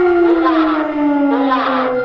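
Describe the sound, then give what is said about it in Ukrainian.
An air raid siren wails over the Kharkiv region during the wartime invasion, one loud, steady tone that holds unbroken throughout. “Повітряна тривога.”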